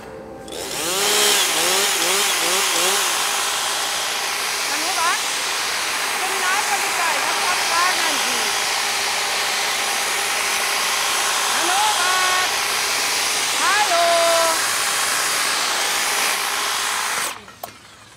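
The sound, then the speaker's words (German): A hedge trimmer cutting a hedge gives a continuous buzzing drone through nearly the whole stretch, with voices talking over it, then stops abruptly near the end. “Hab ich keine Zeit, muss schneiden, Hecke.”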